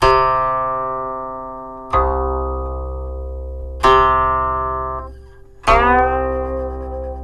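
Four plucked guqin notes, each sounding an open string and a stopped string together, ring out in a slow, even series. Each starts with a bright attack and then rings with a long, fading decay. No one speaks.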